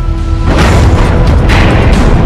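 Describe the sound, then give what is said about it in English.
A computer-generated explosion of the Yellowstone supervolcano, with balls of fire bursting from the park floor, erupts into a loud, sustained booming roar after a brief quieter lead-in, then surges again about a second later. “Okay, and now they brought in the CGI guys and have superposed on this supervolcano balls of fire exploding from the park floor.”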